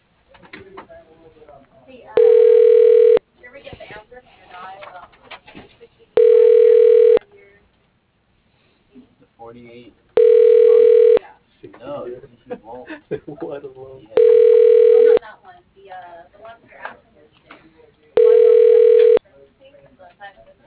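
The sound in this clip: Five evenly spaced electronic tones of an automated phone line transferring a call, each lasting about a second, with a voice speaking in the gaps between them.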